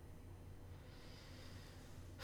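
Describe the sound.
A faint, low rumbling snore from a person dozing off during a demon's long monologue in an audio comedy drama, steady and unbroken.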